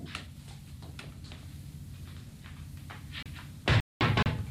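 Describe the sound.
Knocking on a door: a few faint, scattered raps, followed near the end by a couple of louder, heavier thumps.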